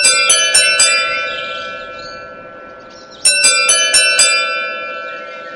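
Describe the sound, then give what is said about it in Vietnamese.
A doorbell rings at an iron-barred gate, sounding in two bursts of bright, clear chime tones. Each burst has a few quick strikes with ringing decay between them. “Chị giúp việc đứng sau song sắt nhận ra cô gái vừa mới bấm chuông là bạn thân của Tiểu Mạn.”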